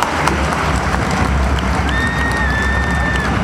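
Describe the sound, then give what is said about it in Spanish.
A crowd at a political event applauds in a loud, continuous roar of clapping. The sound stays broad and even throughout. “yo quiero pedir un aplauso para un compañero que hoy no pudo venir, el compañero José Luis Gioja,”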